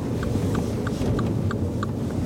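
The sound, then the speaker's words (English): Car in a residential cul-de-sac with its low engine rumble holding steady, while six crisp, evenly spaced ticks repeat over it at a regular rhythm. “and just stop the car here.”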